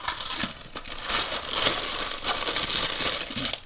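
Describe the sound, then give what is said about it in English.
A cardboard box of frozen beef patties is opened with continuous crinkling, crackling and tearing of packaging. The sound stays fairly steady and full the whole way through. “So we go to the freezer, get the box of beef pucks, open up the box,”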